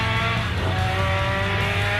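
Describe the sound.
A car engine drones loudly and steadily at high revs while the car is driven flat out in fourth gear on a lap, the tone staying fairly even throughout.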